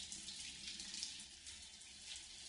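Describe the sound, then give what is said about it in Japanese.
Hot water runs steadily from a tap while shampoo is rinsed out of hair, a soft continuous splashing hiss that stays even throughout, with no voices. “お湯が流れる。左側の髪から泡が流れて消えていく。”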